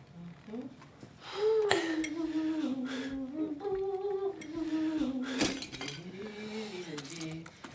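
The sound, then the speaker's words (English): A metal whisk working cooked potatoes in a pot, quick light clinks and scrapes of metal heard faintly beneath a person's voice throughout. “I think the taters are just about done. I'm just gonna give them one quick whisk here.”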